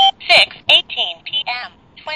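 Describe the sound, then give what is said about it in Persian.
Synthetic voice of a talking clock-thermometer announcing the time and room temperature, a short run of clipped, evenly paced electronic speech with a thin, bright tone. “بچه من یه ساعت دماسنجی گرفتم، بعد هم ساعت هم دماسنجه.”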